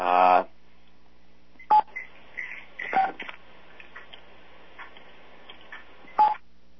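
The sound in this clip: Telephone keypad tones on a muted conference call line as callers press 6 to unmute: a longer tone at the start, then two short separate beeps, with faint low-level sounds between them.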